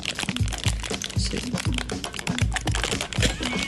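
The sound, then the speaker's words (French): Tightly wrapped product packaging is torn open, giving many rapid, loud crackling and crinkling crunches mixed with dull low thumps in an uneven, busy rhythm. “Ça a l'air difficile à ouvrir en te regardant. Hein? Ben, faut que vous compreniez que l'emballage est quand même assez très serré sur le produit.”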